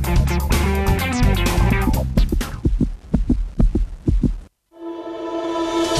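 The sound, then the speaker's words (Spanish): Heartbeat-like throbbing thumps in a rapid series, emerging from dense layered music. A brief silence follows, then a sustained bright tone. “Cuando arrimás la oreja a La Colectiva, vas a escuchar latidos”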